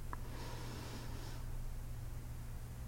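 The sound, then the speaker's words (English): A single soft, airy intake of breath during a guided breathing exercise, faint and brief over a low steady hum. “Again, breathe in.”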